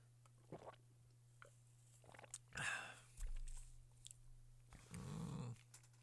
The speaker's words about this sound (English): All right, let's give this Green Apple a try.